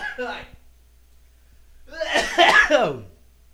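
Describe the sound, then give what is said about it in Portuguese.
A person coughs after choking, a rough, harsh burst of hacking, preceded by a short vocal sound. “Nossa senhora, engasguei aqui, desculpa aí, tá?”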